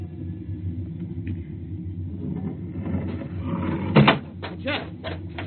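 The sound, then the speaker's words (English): An approaching patrol spaceship, a radio drama effect, sounds as a steady low rumbling drone that swells slightly and peaks in a short louder burst near the end. “Meteor? No, it's a ship. A patrol ship coming up on us.”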